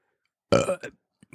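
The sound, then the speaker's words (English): A single loud, throaty burp after drinking Plantation Isle of Fiji rum at 40% alcohol, lasting under half a second, followed by a short silence and a couple of faint small sounds. “That's the burp of approval. Again, unfiltered. On normal show, a normal episode, I'm not burping like this.”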